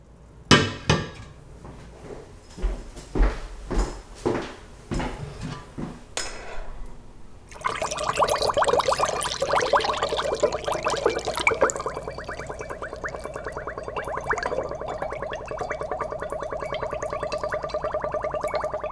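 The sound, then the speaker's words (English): Homemade plum wine drains through a funnel: a run of sharp knocks and clinks gives way to a steady gurgling, trickling flow that keeps on to the end. “This is wine draining through a funnel.”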